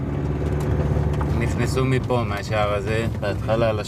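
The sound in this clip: Car engine as the vehicle drives through a kibbutz, a steady low rumbling drone running under continuous talking.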